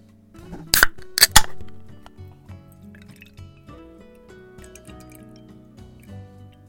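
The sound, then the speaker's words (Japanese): Glass clinks, then hoppy beer pours into a glass: a few sharp, bright clinks near the start give way to a quieter, steady pour with faint drips over a sustained tonal background. “さて、それではグラスに注いでいきます。”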